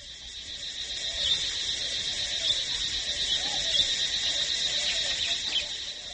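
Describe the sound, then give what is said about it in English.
Shrill insects fill a western Cambodian jungle with a dense, steady, high-pitched buzzing chorus that holds at an even loudness throughout. “In the jungles of western Cambodia, the voices of insects are shrill”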